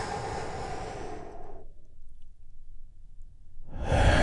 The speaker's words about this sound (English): Take another big, deep, healing breath with me all together.